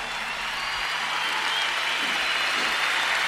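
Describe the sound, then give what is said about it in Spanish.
An audience gives sustained applause to everyone who took part in an event, a steady, dense clatter of hands that swells slightly toward the end. “Un fuerte aplauso a toda la gente que participó.”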